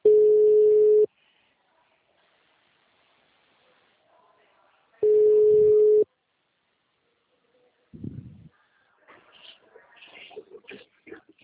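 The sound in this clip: Two long, steady ringback tones sound a few seconds apart on a phone call not yet answered, followed by faint, scattered noises.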